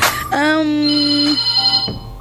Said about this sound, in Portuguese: E o telefone já toca.